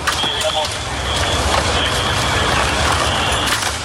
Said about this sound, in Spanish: Ese era el sonido de la retirada de los enseres de los inmigrantes, en total algo más de 6 toneladas de residuos.